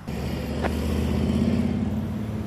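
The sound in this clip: A motorcycle rides away under a steady engine rumble, a low continuous drone that holds an even loudness throughout with no voices.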